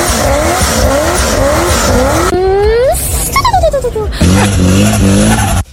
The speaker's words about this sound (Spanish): Un Chevrolet Corvette C6.